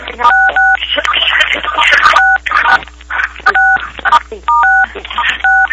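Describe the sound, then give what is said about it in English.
Touch-tone telephone keypad beeps as callers press star 6 on a conference call, several short dual-tone bursts that cut in between stretches of people talking over the line. “Can anybody press star 6 on your phone if you're not asking a question?”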